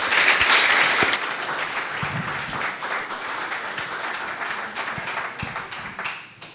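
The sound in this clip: An audience at an evening book talk claps to welcome two speakers, a dense, even wash of applause that is loudest at the start, holds steady for several seconds, then thins out at the end.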